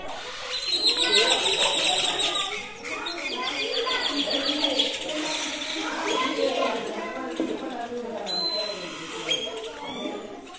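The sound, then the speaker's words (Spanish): Many birds sing in a rural community, with high, rapid chirps and tweets overlapping in a dense chorus. The sound stays fairly loud and steady for about ten seconds. “Voy a grabar los pájaros.”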